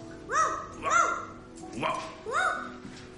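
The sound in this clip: A person imitates a dog barking with four voiced, woof-like calls in two pairs, moderately loud.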